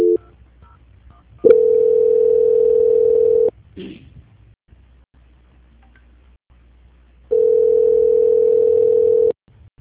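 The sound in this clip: Telephone ringback tones sound while a call is transferred to a bank's quality-control line: two long, steady, even-pitched tones of about two seconds each, separated by a pause of roughly four seconds with a brief rustle between them.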